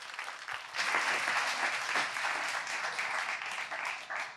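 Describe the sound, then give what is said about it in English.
Applause welcoming a lead pastor. It begins thin, then swells after about a second into sustained, dense clapping that holds a steady level until the end. “Let's put our hands together and welcome our lead pastor, Pastor Joe Sorce.”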